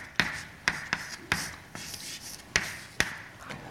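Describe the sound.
An equation is written on a board during a physics lecture on the Hall effect. Several sharp taps and short scratchy strokes arrive in an irregular rhythm, clear and moderately loud, with no talk over them.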